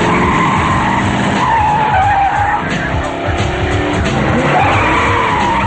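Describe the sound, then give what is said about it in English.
Tires skid and screech as a car speeds around a corner during a high-speed chase through town. A loud, continuous engine roar runs underneath, with the squeal warbling on without pause. “Blade speeds around a corner behind Krieger.”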